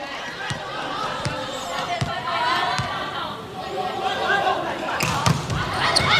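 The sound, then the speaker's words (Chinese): Sharp ball strikes crack over steady arena crowd noise as a substitute server for China's volleyball team scores an ace; several impacts punctuate the continuous chatter and murmur of spectators. “好发球， 杨淑明替补上来发球直接得分。”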